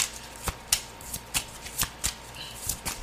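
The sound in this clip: Tarot cards being shuffled by hand: a steady run of crisp, papery snaps and riffles at fairly even intervals, many in all, quiet and alone with no talk.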